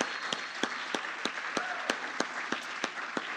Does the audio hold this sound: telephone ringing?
no